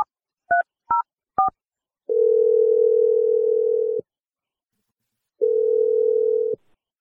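A telephone is dialed with three short touch-tone beeps in quick succession, followed by two long, steady line tones separated by a pause of about a second, with no other sound.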